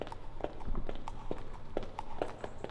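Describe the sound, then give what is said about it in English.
Racehorse hooves clip-clop in a steady, quiet series of sharp knocks, set within a piece of audio fiction, with no voices heard. “My husband's name is Run Like a Dream, and he's a professional racehorse.”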